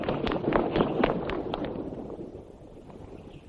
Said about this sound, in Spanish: Las niñas se acercan corriendo a abrazarla.